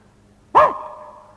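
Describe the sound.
A human voice imitates a dog with a single short, sharp bark that trails off quickly, given as a one-bark answer in a counting game.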